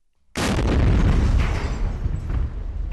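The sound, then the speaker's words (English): A massive controlled detonation of about 400 pounds of roadside bombs on a bridge in northwestern Marja cuts in abruptly after brief quiet, then rolls on as a loud, sustained, rumbling roar. “The Marines detonate 400 pounds in IEDs they uncover on the bridge into northwestern Marja.”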